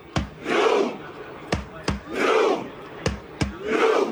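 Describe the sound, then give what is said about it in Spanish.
A crowd dressed in red in Times Square performs a Viking battle cry while making a rowing motion. Sharp percussive hits are each followed by a loud unison shout, repeating three times in a steady rhythm. “El U quiere decir el remo, el grito vikingo.”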